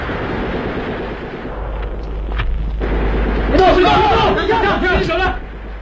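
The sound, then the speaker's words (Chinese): Gunfire sound effects in a Chinese radio drama scene of rebels being wiped out: a few sharp shots crack over a low rumble, followed by loud shouting voices. “巴勒托杰的酥油火把和枪声宣告的却是这批暴乱分子的全部覆灭。”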